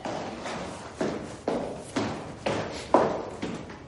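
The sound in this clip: Footsteps crossing a room toward a door in a drama film: a steady series of soft, thudding steps, evenly paced at about two per second and fairly quiet, with no other sounds.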